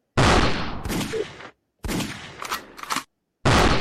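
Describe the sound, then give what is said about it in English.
Gunshot sound effect: three loud bursts of rapid gunfire, each lasting about a second, split by short silences. The middle burst carries a few sharper spikes near its end. “Give me my gunshot.”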